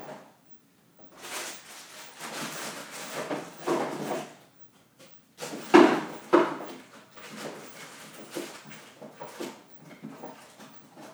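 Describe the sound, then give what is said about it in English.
Tea boxes and packets being put back into a kitchen cupboard, heard as a string of soft knocks, rustles and wooden thumps, with a louder clunk partway through. “So now I'm putting all the tea and stuff back in the cupboard from which I just removed it.”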